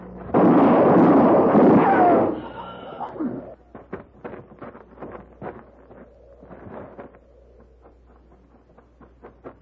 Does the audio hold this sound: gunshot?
yes